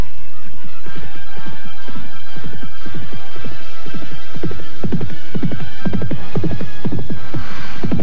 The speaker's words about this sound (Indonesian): Dan beberapa saat saja tanpa dapat dicegah, kedua pengantin itu telah berderap menjauhi desa Kalibagor.